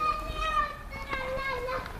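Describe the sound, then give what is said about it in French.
Children play on a park playground with metal slides and wooden towers, their voices and shouts mingling in a steady, moderately faint babble of high chatter. “il y a des enfants qui jouent avec des toboggans de métal, des tours en bois.”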